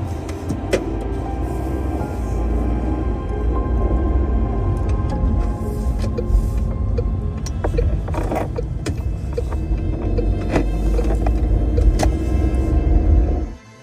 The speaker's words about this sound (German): Und ich fahre jetzt, glaube ich, erstmal los. So, festhalten.